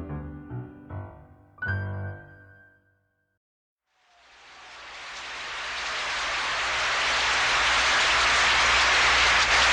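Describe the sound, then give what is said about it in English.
Opening-night Broadway audience giving Angela Lansbury a standing ovation at Mame: a dense roar of clapping swells steadily from silence to full loudness, preceded by a brief musical phrase and a moment of quiet. “You get it right away in the theater, and you can tell how this opening night audience feels. They're on their feet. It's a standing ovation for Angela Lansbury,”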